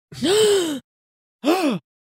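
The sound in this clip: A person gasps twice in surprise: a longer, loud voiced gasp, then after a pause a shorter one. Each has an arching, falling vocal tone, heard alone with nothing else around it.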